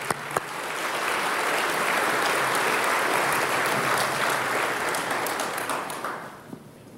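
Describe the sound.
A church audience applauds to welcome a speaker, a dense, sustained round of clapping that holds steady for several seconds before tapering off at the end.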